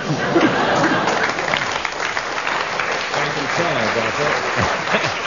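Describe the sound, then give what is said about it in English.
Audience applause fills the whole stretch, a loud, dense and unbroken patter of many hands clapping that holds at a fairly even level. “10 marks there for the audience's rapturous reception of that one.”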